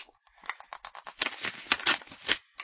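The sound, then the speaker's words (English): Paper rustling and tearing as a Christmas card envelope from Ireland is opened, a quick run of dry, crinkly scrapes and rips that vary in loudness, with no talking. “I have a Christmas card from Ireland, which I was going to open on the air here.”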